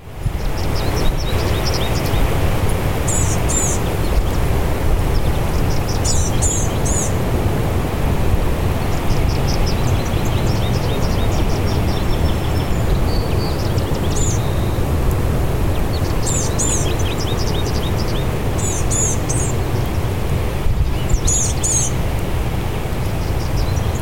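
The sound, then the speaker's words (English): Blackburnian Warbler song: thin, very high-pitched phrases repeated at irregular intervals, faint over a constant loud hiss of background noise. “Blackburnian Warbler.”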